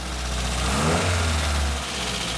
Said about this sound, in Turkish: yedek bir buji takıyor. Tam zamanında ben ikinci motor testine dönüyorum. Tamam hadi deneyelim.